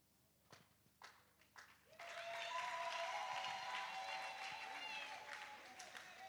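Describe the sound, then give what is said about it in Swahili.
Church audience applauding: a voice speaks briefly, then broad, steady clapping from many hands rises and continues for several seconds at an even level, tapering slightly at the end. “Makofi kwa Yesu.”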